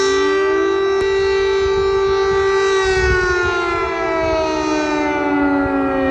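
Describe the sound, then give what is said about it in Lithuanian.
Air raid sirens wail over Kyiv at night during a drone attack warning. A loud, sustained tone with rich harmonics holds steady throughout, its pitch sagging slightly toward the end. “Tada, apie 3:00 nakties, vėl kaukė oro pavojaus sirenos dėl atskriejančių dronų.”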